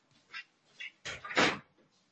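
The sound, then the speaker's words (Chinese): A door being closed: two faint clicks, then two louder knocking bumps in quick succession as it shuts, followed by quiet. “门关上哈，门好像是开的。”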